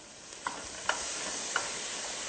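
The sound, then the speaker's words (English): Garlic and onions begin to fry in a pan with a steady, soft sizzling hiss, broken by three light taps of stirring. “Put a little garlic. And we'll just start that a little bit.”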